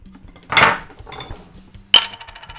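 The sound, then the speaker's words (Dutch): A knife dipped into a jar of fried spicy sambal: a short scraping clatter of metal against glass, then a pause and a single sharp clink, with no talking. “Ik steek het, uh, het mes erin en ik smeer de sambal heel licht, heel weinig, maar wel genoeg”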